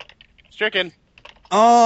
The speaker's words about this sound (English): Hear that? That's the sound of me continuing to type it.